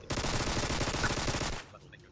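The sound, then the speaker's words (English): Rapid automatic MP5 fire in a video game: one continuous burst of tightly packed shots lasting about a second and a half, then cutting off into a short fading tail. “MP5 equipped. MP5 equipped. It has 0 of 30 rounds, and you have 1,000.”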